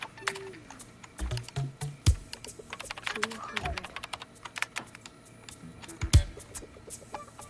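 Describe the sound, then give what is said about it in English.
Typing on a computer keyboard as a boy works at his computer: many quick, irregular clicks and taps, with a voice speaking at moments. “Preston switches on his computer and begins to type.”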